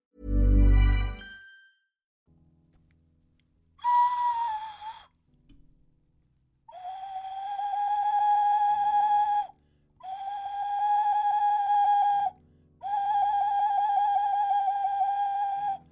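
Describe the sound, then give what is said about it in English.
An ocarina plays pure, breathy tones: one short wavering note, then three long held notes with gentle vibrato separated by brief pauses, after a short low thump at the start. “That was an ocarina, so you didn't get a surprise by a loud advert.”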